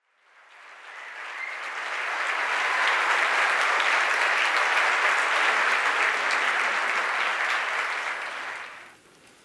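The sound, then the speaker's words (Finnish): Welcoming applause from a lecture audience swells in over a couple of seconds, holds as a dense, steady wash of clapping, then dies away quickly near the end. “ja kiitos näistä äskeisistä ää, tervetuloa aplodeista”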